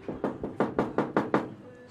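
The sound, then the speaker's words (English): Knuckles knocking on a door leading downstairs at a long-running business in Dublin's Temple Bar: seven hollow knocks, two, a short pause, then five in a quick, even rhythm, with no talk. “I'll just knock.”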